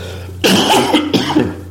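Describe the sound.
Coughing during sports talk: a couple of harsh, rough bursts, the first longer and the second shorter, loud against a quiet background.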